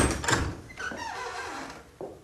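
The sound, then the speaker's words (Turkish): A front door opens for a visitor with a drawn-out squeaky creak that wavers in pitch, followed near the end by a short solid thud. “İşte geldi. Ben hemen gidip kapıyı açayım.”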